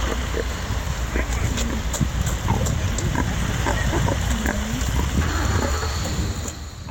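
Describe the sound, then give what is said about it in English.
Grunts and snorts from a 600-pound pig arriving at a polling place in Pelham, New Hampshire, a string of short low oinks and squeals over a steady hissing background. “That is the sound of a 600-pound pig showing up at the polls in Pelham, New Hampshire.”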